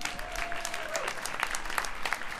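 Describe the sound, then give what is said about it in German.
Audience applause at a big band concert, a dense, steady clapping from a crowd that holds at an even level throughout, with no clear voices on top. “Also ein extra Applaus für die Annette, bitte.”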